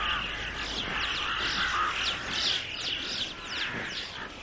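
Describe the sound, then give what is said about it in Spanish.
Birds in a flock call over a steep mountain peak, with many high, overlapping chirps and harsh caw-like cries running steadily throughout at moderate loudness. “Una bandada de pájaros sobrevuela una escarpada cima.”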